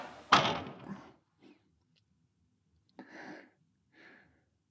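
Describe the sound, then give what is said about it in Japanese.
A door is pushed shut with one sharp thud, followed by a few faint, soft shuffling sounds in an otherwise quiet space. “とりあえずドアだけ閉めちゃいますね。”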